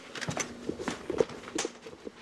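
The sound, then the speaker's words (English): Footsteps of a man walking calmly away from an angry beehive with bees on him, a quick, irregular run of soft scuffing steps at moderate loudness, ending in a sharper, louder thump. “He's got a lot of bees on him, but he's calmly walking away from the hive”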